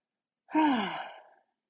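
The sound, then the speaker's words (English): One deep breath released through the mouth as a soft, breathy sigh, lasting about a second, with a faint voiced tone that slides downward as it fades, heard alone. “take a really big deep breath, maybe inhale through your nose and exhale out of the mouth.”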